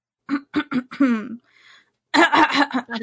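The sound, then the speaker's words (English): Throat clearing from phlegm after laughing: a few short, rough bursts followed by a voiced grunt, then people begin talking. “Yeah, I was laughing, so I got like phlegm in my throat.”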